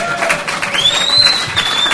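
Audience applause and cheering for a comedian during a stand-up set, a dense, steady patter of clapping with crowd noise that holds at an even level for about two seconds.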